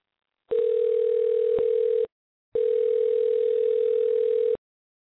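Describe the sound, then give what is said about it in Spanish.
A telephone dial tone sounds while a call is being placed, two long, steady, mid-pitched tones of even loudness separated by a short silence. “ya me acaba de llamar el campeón, Títere Vázquez, y en ese momento lo vamos a marcar”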